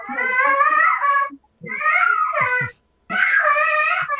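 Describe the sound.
A baby at home calls out and cries in three bursts of high, wavering, tonal wails, separated by short silent pauses.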